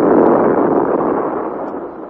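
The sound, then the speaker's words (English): A ball of electric fire bursts in an explosion on board a ship: a sudden crack, then a loud, dense, roaring rush of noise that holds steady and slowly fades. “And then suddenly the ball of fire bursts.”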